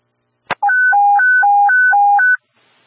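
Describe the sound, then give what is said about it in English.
A radio test's emergency retreat alert tone follows a sharp click: a loud electronic warble alternating evenly between a low and a high pitch for under two seconds, then stopping abruptly. “Alert tone 2, emergency retreat.”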